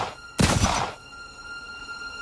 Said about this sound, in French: Je fouillai rapidement dans ma poche, j'en tirai mon Browning tout armé. Je fis feu.